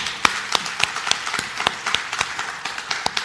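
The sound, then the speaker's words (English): Audience applause welcoming a guest, a steady bed of clapping marked by a few sharper individual claps standing out throughout, with no voices over it. “So yeah, welcome. Everybody give it up for Robbie.”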